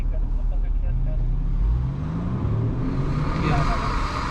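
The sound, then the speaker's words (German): An SUV engine revs hard at full throttle as the car pulls away, a loud, rough, low roar with its pitch climbing in places, amid steady road noise. “Wiederholt gibt der Fahrer beim Anfahren Vollgas.”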